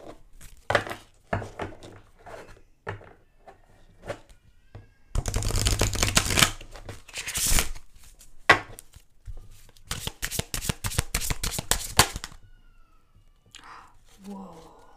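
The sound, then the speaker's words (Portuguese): Playing cards shuffled and handled, with crisp riffling bursts and a longer crackling run of shuffles, separated by quieter taps, flicks and card handling. “Gostam da ASMR de cartas? Acho que fica um bocado forte para os vossos ouvidos, mas é o que é.”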